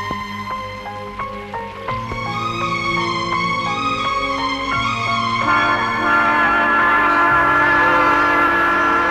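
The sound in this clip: A train sounds, with layered horn-like tones shifting in steps over a steady rumble that grows louder and rougher toward the end.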